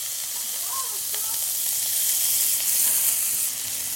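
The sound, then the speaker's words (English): Onions, carrots, peppers and garlic frying in a pan give a steady, even hissing sizzle that swells slightly in the middle, with no talk. “So we're letting the onions caramelize a little bit. We're not getting caramelized onions, but we just want to get some caramelization and bring out the natural sugars. The carrots are also sweating down.”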